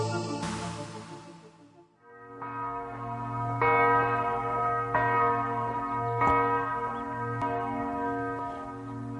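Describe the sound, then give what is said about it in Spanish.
A church bell tolling at the Dachau concentration camp in Bavaria: several slow, measured strikes, each with a rich metallic ring and a long humming decay, after a brief burst of noise at the start. “Así suena una campana repicando desde el campo de concentración de Dachau.”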